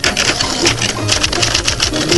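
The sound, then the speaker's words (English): Automatic auto-typist typewriters type preset sentences chosen by push-button: a loud, rapid, continuous mechanical clatter of many keystrokes in a steady rhythm. “Push-button selection of preset sentences, most useful for instructions to salesmen and many other things, is all that's necessary. The almost magic typewriters do the rest.”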